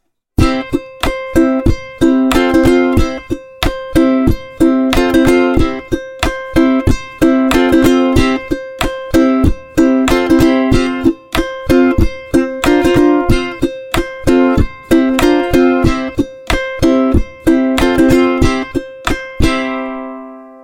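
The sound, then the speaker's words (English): Percussive ukulele thumps and rimshots, with a pickup and a microphone blended together: a steady, loud rhythm of many sharp strummed hits, low thuds mixed with bright cracks, played alone and ending on a short ringing decay. “to have a blend of pickup and microphone so that you get the low thumping sounds and you get the higher rimshot sounds, and the audience just blissfully hears it as one blended package of sound like this.”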